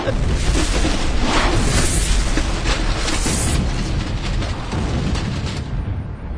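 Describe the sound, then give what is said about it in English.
A roaring blast shockwave from an explosion in a sci-fi space drama, a dense and loud continuous rumble that holds steady for several seconds before easing off slightly at the end. “Attention. Brace yourselves for the blast shockwave.”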